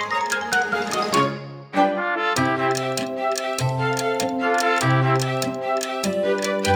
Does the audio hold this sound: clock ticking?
yes